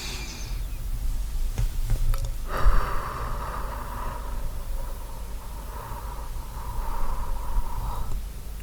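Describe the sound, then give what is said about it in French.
A slow, deep breath drawn in and let out during a guided relaxation exercise, heard alone as a soft, airy hiss that swells and lasts several seconds. “respire profondément. Prends une grande inspiration.”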